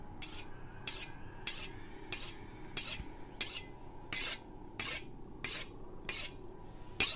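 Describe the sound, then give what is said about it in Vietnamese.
Harsh metal scraping as a knife is sharpened on a whetstone: many evenly spaced rasping strokes repeat at a slow, steady rhythm, each a bright gritty swipe over a quiet low background. “Ấy thế nhưng giữa sự tĩnh lặng ấy lại vang lên một cái thứ âm thanh, một thứ âm thanh đến rợn người, là âm thanh mài dao. Tiếng mài dao ken két, ken két.”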